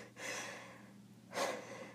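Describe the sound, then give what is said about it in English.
Heavy, out-of-breath breathing: two long, loud, breathy gasps separated by a short dip, with no talking. “I'm still out of breath, what the hell?”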